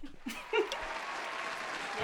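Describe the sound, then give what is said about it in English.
Applause from a sound-effect button: steady crowd clapping swells in after a brief start and carries on at an even, fairly quiet level to the end. “You have the applause button? Do I have the applause?”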